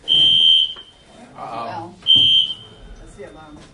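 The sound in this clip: Electronic alarm buzzer sounding two loud, steady high-pitched beeps, each under a second long and separated by a pause in which a person speaks briefly.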